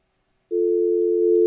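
A steady mid-pitched telephone line tone follows a radio caller hanging up. It cuts in abruptly after a brief silence and holds unbroken and loud to the end.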